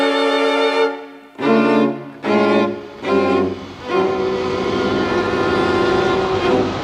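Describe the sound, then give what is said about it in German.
Train sounds at a station as a train arrives to carry a soldier back to the front: a few loud, tonal, whistle-like blasts separated by short gaps, then a steady, sustained mechanical roar. “Auf dem Bahnhof wartete er, bis ein Zug kam und fuhr an die Front zurück.”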